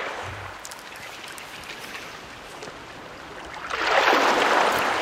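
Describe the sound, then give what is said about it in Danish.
Small sea waves lap at the shore by a summer house in a steady soft wash of water that swells into a louder rush near the end. “Så den der første lyd, man har i øregangen, det er lige det der lille fine bølgeskuld.”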